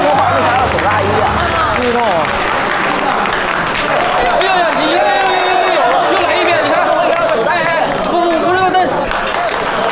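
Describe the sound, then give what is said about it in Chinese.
Audience applause welcomes four directors onto a stage. Dense, loud clapping continues without a break, with crowd voices and cheering mixed in. “让我们以热烈的掌声隆重的欢迎四位导演”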